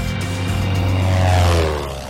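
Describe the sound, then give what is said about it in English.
A small red propeller monoplane drones steadily as it flies over glassy, ice-speckled water and a glacier, its engine a continuous low hum with a buzzing tone that swells a little and then eases. “A small red monoplane swoops over glassy water speckled with chunks of ice. It glides toward the sheer head of a glacier, then soars over its jagged surface.”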